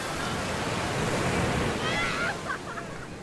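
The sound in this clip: Pacific Ocean surf rolls in at the Costa Verde beach in Lima, a dense, steady roar of breaking waves that eases slightly toward the end.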